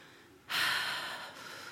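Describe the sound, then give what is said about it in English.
A deep breath drawn in by a person: one loud, airy inhalation that swells suddenly and then tapers over roughly a second, with no talk. “Taking a deep breath.”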